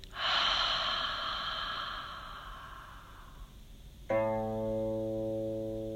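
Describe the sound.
A long, airy exhale with an open 'ha' comes during a guided breathing exercise. It is loud at first and fades over about three seconds, then a steady, sustained humming tone follows.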